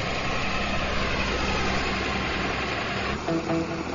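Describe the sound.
An aircraft engine rumbles just after touchdown, giving a steady, low drone that holds evenly and then dips briefly near the end.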